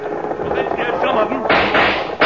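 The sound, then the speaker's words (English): Gunshots are fired to scare the lead cows of a stampeding cattle herd. A voice comes first, then a couple of loud, sharp bangs. “Guess I'll have to shoot to scare off the lead cows.”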